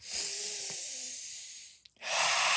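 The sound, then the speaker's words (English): A deep breath: a long, steady rush of air lasting nearly two seconds, then a brief pause before a second strong, breathy gust. “let me take a deep breath”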